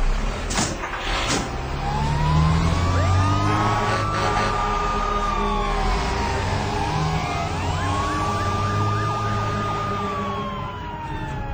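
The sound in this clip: A fire engine siren wails on its way to a structure fire, with slow rising and falling sweeps over a steady low engine rumble that runs throughout.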